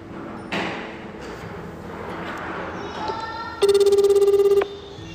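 An outgoing telephone call's ringback tone: one steady, buzzy ring burst of about a second near the end, after a stretch of faint background noise.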